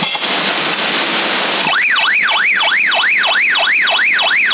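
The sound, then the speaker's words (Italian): Electronic alarm sounding over a CB radio channel: a burst of hiss gives way to a loud, band-limited warbling tone that sweeps rapidly up and down in pitch in a steady repeating cycle until the end. “Questo qui è l'allarme del coso, ce l'avevo anch'io quello lì.”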